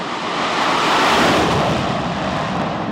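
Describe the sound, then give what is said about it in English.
A military jet takes off from a US Navy aircraft carrier during a military exercise: a loud, dense, continuous roar that swells slightly midway and holds steady throughout. “The rumbling from each takeoff shoots up your limbs, past your chest and all the way to your teeth.”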